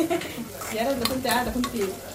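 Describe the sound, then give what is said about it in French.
Stirring a pot of Sudanese asida with onions, meat, tomatoes and okra: a soft, continuous scraping and sizzling with light clinks, fairly quiet and steady throughout. “Alors, on coupe les oignons, la viande, les tomates, les okras. On mélange.”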